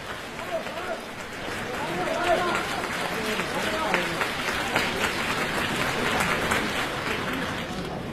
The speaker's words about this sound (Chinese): 谢谢大家掌声。